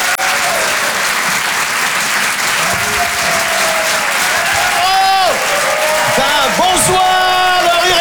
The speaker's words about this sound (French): Ça pourrait être un tonnerre, d'applaudissements. À très bientôt. Rire et chanson. Faites un maximum de bruit, s'il vous plaît, pour Monsieur Yann Guillaume.